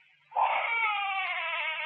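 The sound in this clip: A baby's cry in a Vietnamese cải lương stage drama: after a brief quiet moment, one loud, sustained wail with wavering, bright harmonics carries on to the end without a break.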